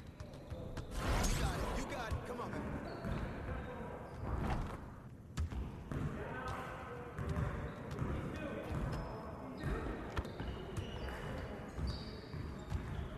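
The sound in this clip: A basketball is dribbled fast during a dribble speed run drill, many quick thumping bounces in a steady stream while a person talks over them.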